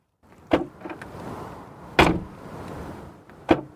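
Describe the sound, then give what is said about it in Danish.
Hollow, tinny clunks from a car's boot lid being opened, three sharp evenly spaced metallic knocks with soft rustling in between and no talk. “Når man åbner bagagerummet, så lyder det simpelthen som om, at det er en meget billig blikspand, at man åbner.”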